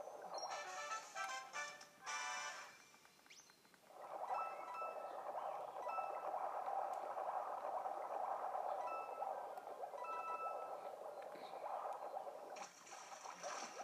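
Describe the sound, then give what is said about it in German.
Watery underwater swimming as an ice fish in Super Mario Odyssey, set in a cold land: a steady, bubbling wash of gurgling water that holds for most of the stretch, with a brief dip in level near the start. “Das macht so Spaß, mit diesem Fisch zu schwimmen.”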